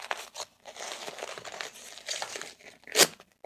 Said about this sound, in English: let's pull this diaper up nice and snug. Can't have any leaks for this little baby. One tape.